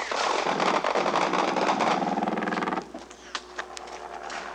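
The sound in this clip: Machine gun fire from an attacking plane: a loud, dense, rapid rattle of shots runs for nearly three seconds, then drops to fainter scattered sounds.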